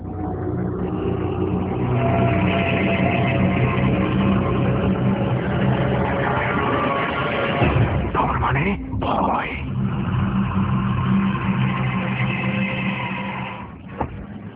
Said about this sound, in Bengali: গাড়ির এই শব্দ শুনে কিন্তু কনফিউজ হয়ে যাবেন না। জার্নি শুরু হয়নি, জার্নি অনেকটা শেষ হয়ে গেছে। অর্থাৎ ঠিক এই মুহূর্তে আমি গাড়ি থেকে নেমে গেলাম এবং মিরপুরে আমাকে গাড়ি থেকে নামিয়ে দেওয়া হয়েছে